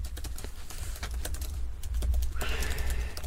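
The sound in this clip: Keys clatter on a computer keyboard as a question is typed to an AI chatbot, with many quick, faint clicks in an uneven run over a low, steady hum.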